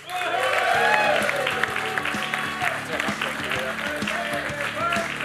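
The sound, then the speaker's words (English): An audience applauds as two Irish sporting legends come on stage at a live roadshow event. The clapping and crowd noise are steady and full, with music playing underneath. “Please give it up for two Irish sporting legends, Nicky English and Davy Russell.”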